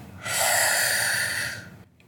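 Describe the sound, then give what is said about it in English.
Breathing during a guided affirmation exercise: a single long, airy breath that holds steady and then fades into quiet. “Let's breathe in, breathe out.”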